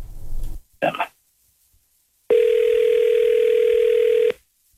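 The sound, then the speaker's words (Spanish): Ringback tone of an outgoing phone call: one steady, flat mid-pitched tone holds for about two seconds, after a brief burst of voices at the start. “Mamá, te estoy llamando.”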